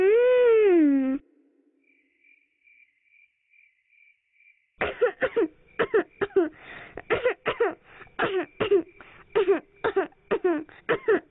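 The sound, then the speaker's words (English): A person with a fever breaks into a long fit of many quick, rough, voiced coughs, after a short wavering tone and a quiet stretch with a faint, high, repeating whine. “What's wrong? Why have you suddenly got so much cough?”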